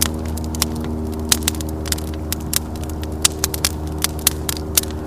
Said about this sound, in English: Yeah gotta watch these um these sparks because we got dry leaves around us.